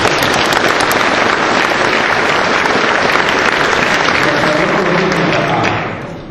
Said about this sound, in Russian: Соответственно, ну молодец, похлопаем.